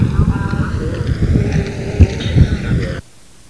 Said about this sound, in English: These are the sounds of Pacific Avenue in the last week or two, interviews and simply candid sound bites we took off the streets.